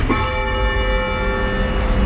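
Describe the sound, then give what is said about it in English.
A church bell rung with a rope pull from the ringing floor gives one sustained, resonant tone whose steady overtones hang on for the whole clip with no talk. “So if you want to come over here and have a ring on the floor, just a down bell, you'll feel the difference.”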